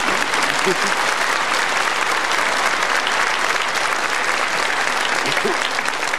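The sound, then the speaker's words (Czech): An audience at a live comedy performance breaks into loud, steady applause, a thick, even clatter of many hands that carries on for several seconds without fading. “Co říkáte, kolegyně, našemu dnešnímu publiku? No, já myslím, že je velice inteligentní, jo. Že? No, směje se, tleská.”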